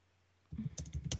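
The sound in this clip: Typing a message on a computer keyboard: a brief silence, then a quick run of several sharp, clattering key clicks in an uneven rhythm, heard alone with no voices.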